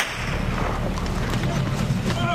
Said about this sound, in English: The Marines and Afghans take cover, crouching behind mounds of dirt. They return fire.